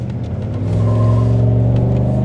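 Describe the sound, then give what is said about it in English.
SUV engine revving hard under acceleration in sport mode, a deep, steady growl with strong harmonics that builds a little in loudness and then holds, with no voices. “I'm going to put it in sport mode because we had the sport mode enabled on the Ford as well. And we're going to go for a short drive.”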